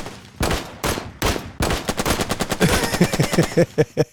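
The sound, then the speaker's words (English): Gunshot sound effects: a few loud, spaced shots open, then faster bursts of gunfire crowd together in a rattling volley. “We gonna have to work on those gunshots, man, because you gotta turn them up or something. Well, I'm just gonna keep fucking shooting, damn it, until motherfuckers get the idea.”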